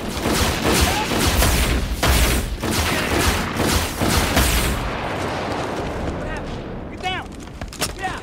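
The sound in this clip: Heavy gunfire in a military firefight: dense bursts of rapid shots and booming reports pound for about five seconds, then the firing dies down to a quieter, rumbling background.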